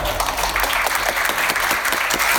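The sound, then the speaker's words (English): An audience at an award ceremony applauds wildly, with steady, dense clapping that stays loud throughout. “Everyone's applauding wildly. That's the end of the award ceremony there.”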